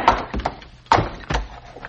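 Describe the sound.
A club strikes a mule's head in a radio drama. A few heavy, dull thuds land at uneven intervals, each followed by a short, softer knock.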